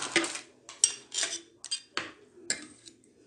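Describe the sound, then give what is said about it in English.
Black cake batter being mixed in a pot gives quiet, irregular metallic clinks and knocks, like a utensil striking the pot's sides, with soft scraping between the many taps. “So now our pot is full of black cake batter. Yeah, we have to make sure it's mixed.”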